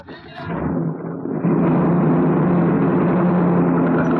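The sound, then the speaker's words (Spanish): A transport truck engine rumbles as the vehicle starts to move, first as rough uneven noise, then stepping up to a louder, steady drone with low humming tones that holds to the end. “El vehículo se pone en movimiento bajo la mirada atenta de la bruja blanca y los basamis.”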